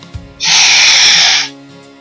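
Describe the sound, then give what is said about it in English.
A single long, deep breath drawn in, a steady airy hiss lasting about a second that rises sharply and fades, loud against an otherwise quiet background. “Let's take a deep breath.”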